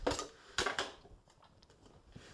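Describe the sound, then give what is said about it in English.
The back of a knife scrapes food off a cutting board for a food processor: two short, scratchy strokes, then faint, light scrapes and taps. “Now I'm using the back of the knife. Always use the back of the knife when you're scraping things off your cutting board and putting it into the food processor.”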